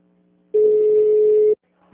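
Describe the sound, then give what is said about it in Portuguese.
A telephone line tone plays while a call is transferred through a Brazilian phone system: one steady, mid-pitched beep lasting about a second, set between stretches of near silence. “Por favor, aguarde. Estamos transferindo a sua ligação.”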